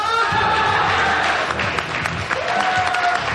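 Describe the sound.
A studio audience on a TV cooking show applauds and cheers to welcome a guest chef. Dense, steady clapping mixes with shouted cheers and whoops and holds at an even, loud level throughout.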